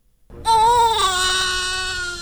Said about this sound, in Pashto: دا د هغه ماشوم د ژړا اغږ دی چې تازه د خوست د ایم ایس ایف یا د بې پولې ډاکټرانو په زیږنتون کې پیدا شوی.